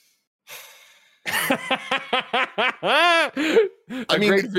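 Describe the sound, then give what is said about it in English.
A sharp, hissing inhale drawn through the teeth comes first, followed by a run of short voiced breaths and laugh-like bursts. The bursts are moderately loud and irregular, with a longer groaning tone in the middle. “just deep inhales through his teeth and oof”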